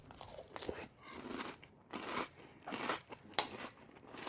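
Crunching and chewing of Franken Berry cereal during a taste test: repeated crisp bites and chews in uneven bursts, faint and with no talk.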